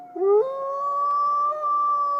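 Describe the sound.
A single long wolf howl opens with a short yelp that slides upward, then holds a clear, steady mid-pitched tone for nearly two seconds, heard alone.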